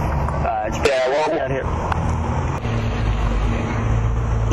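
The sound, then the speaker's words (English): Buses and cars drive by outside, making a steady low traffic rumble with a faint passing swell, while a person talks briefly over it. “I'm sitting outside. Yeah, we got buses and cars driving by constantly.”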